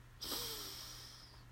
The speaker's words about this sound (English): So breathe in and out.